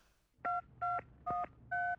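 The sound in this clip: Touch-tone telephone dialing: four short, evenly spaced two-tone beeps, each steady in pitch and clearly loud above a faint low background hum.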